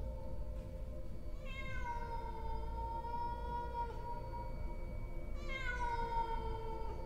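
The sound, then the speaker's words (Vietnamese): Two long, drawn-out cat meows at night, each sliding slightly downward in pitch before holding level. They stand out clearly over a steady low background rumble with gaps in between. “Trong đêm đen tĩnh lặng, con mèo nó cất lên những tiếng gừ gừ trong cổ họng. Rồi sau đó nó bắt đầu kêu lên.”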